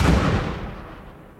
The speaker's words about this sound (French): il est mort le 10 mars 1906 lors d'une explosion à Courrières. Il y a eu un coup de grisou.